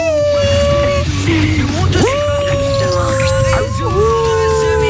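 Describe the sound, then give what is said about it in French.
A small miniature pinscher dog, about five kilos, whines and howls in long sustained tones that bend in pitch and swoop upward midway, carrying on without a break for the whole stretch. “C'est un chien, c'est pas un loup, Scooby-Doo. Scooby-Doo, il fait des bruits comme ça. C'est quoi comme modèle de chien ? C'est un pincher nain.”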